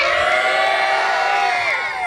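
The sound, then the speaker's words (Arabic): Loud crowd cheering and whooping at a live lecture event, a sustained, dense roar of voices that holds steady throughout. “الطبله بغى تنفجر عندي شوف الجماهير”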